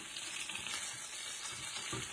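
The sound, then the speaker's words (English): Food frying in a little pan while being flipped with tongs: a continuous, dense crackling sizzle that stays even and moderately loud throughout. “I'm going to attempt to do some flipping in this little tiny pan. And you can see how the sides of the tongs are kind of getting in the way. But I'm going to try to do it anyway. And I'm going to flip it.”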